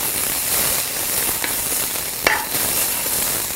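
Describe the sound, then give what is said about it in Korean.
Steady hiss and sizzle of vegetables stir-frying in a pan over very high heat, continuous and fairly loud, with a few sharper clinks of a utensil against the pan. “빠른 팬에 이렇게 아주 강한 불에 빠르게 이렇게 볶아주세요. 색깔까지 그대로 살아있을 수 있도록 먼저 야채를 볶아주세요. 자, 야채를 볶고.”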